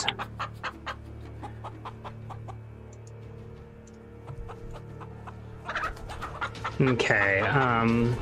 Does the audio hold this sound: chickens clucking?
yes

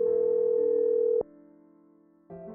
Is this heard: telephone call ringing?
yes

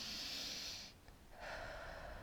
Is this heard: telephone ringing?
no

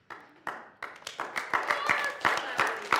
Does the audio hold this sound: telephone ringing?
no

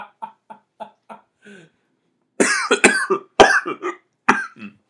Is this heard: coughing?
yes

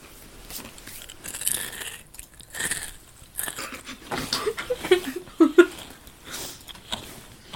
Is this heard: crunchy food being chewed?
yes

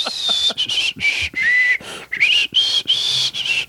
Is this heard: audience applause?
no

